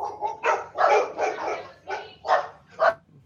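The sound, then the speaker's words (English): Dogs barking at something outside: a run of sharp, mid-pitched barks in quick, irregular succession, loud and with no talking over them. “they saw something outside and decided that they needed to bark.”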